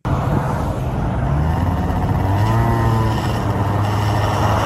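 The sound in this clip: Car engine and road noise in traffic as one car closes in, a loud, steady roar with a low engine hum and a few wavering engine tones throughout, with no voices.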